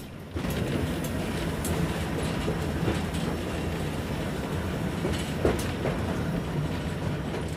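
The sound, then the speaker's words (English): A steam locomotive runs under power while the driver works the regulator, giving a steady rumbling drone with a rhythmic clickety-clack of wheels on rail joints and no voices. “I've got two controls here to make the train go. The regulator is the one I'm holding now, which is the valve that emits steam from the boiler to the cylinders.”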